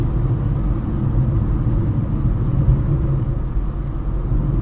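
A car driving along a road gives a steady, low engine rumble with constant road noise, unbroken and fairly loud throughout, with no voices.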